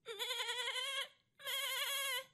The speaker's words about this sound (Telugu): మేకలు చూశాయేమో, అక్కడినుంచి అని అరుపులు ఎక్కువైనాయి